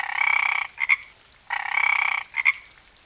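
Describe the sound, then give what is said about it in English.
Tree frogs croak in the rainforest in two loud rasping calls, each a long pulsing croak followed by a couple of short clipped notes, with nothing else heard. “Here you will find several species of tree frogs,”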